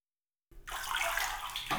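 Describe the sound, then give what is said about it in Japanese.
Hot water rinsing hair: a steady rush of running water starts abruptly after a short silence and continues evenly, fairly loud, with no voices. “それでは、髪お湯で流しましょうか。”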